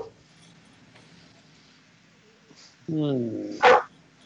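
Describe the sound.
A dog barks after a quiet stretch: first a drawn-out, whining tonal yelp, then one brief, sharper and louder bark.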